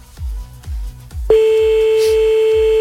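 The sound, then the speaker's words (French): A telephone ring tone sounds on an outgoing call that goes unanswered: one long, steady, mid-pitched tone of about a second and a half, preceded and accompanied by low rhythmic thumps of a beat. “On appelle le premier de ce soir, 23h38 sur Fun Radio.”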